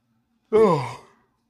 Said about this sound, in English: Oh, I'm yawning.